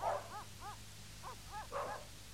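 Dogs bark in a quick run of several short, mid-pitched yaps separated by brief gaps. The barks are faint over a low, steady hum.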